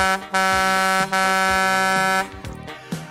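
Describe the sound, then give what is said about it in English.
Two long, loud blasts from a cement mixer truck's air horn, a steady brassy blare, the second held longer than the first, trailing off into fainter noise at the end. “she's off in her cement mixer. Look out for her. You can't miss her. She'll be there. If you wave at her, she'll toot her horn.”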